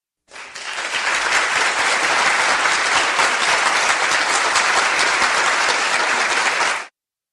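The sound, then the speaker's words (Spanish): A burst of applause from a group, rising quickly to a dense, even clatter of many hands that holds for about six seconds before stopping abruptly. “Vale, aplauso para Don Quijote.”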